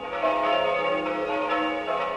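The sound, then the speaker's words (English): Church bells ring out from a Presbyterian church in Jenkintown, Pennsylvania, for a commemoration: loud overlapping metallic strikes blend into a sustained, shimmering hum that carries through the whole clip with no talking. “Those bells from Grace Presbyterian Church in Jenkintown, Pennsylvania.”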